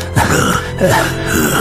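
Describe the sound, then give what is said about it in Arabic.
Coughing and throat clearing in a dramatized scene, repeated as persistent fits: a few rough, low, voiced bursts, fairly loud and alone without talk. “يا لهذا السعال الذي لا يهدأ.”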